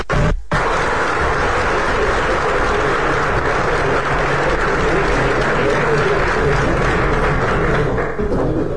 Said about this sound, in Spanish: No sin antes pedirles a todos podamos brindarnos un aplauso por este avance tan importante.